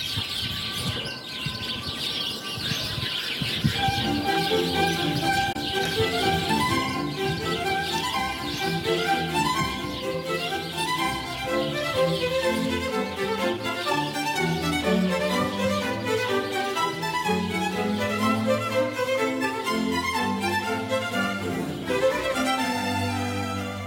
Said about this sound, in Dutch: iedere dag komen de mussen. Een hoop kabaal, erg actief.